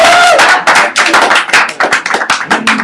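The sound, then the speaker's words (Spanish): Loud clapping from a small audience gathered in a comic shop, uneven bursts of hand claps that rise and fall irregularly across the moment rather than forming a smooth wash. “Un aplauso para Toño”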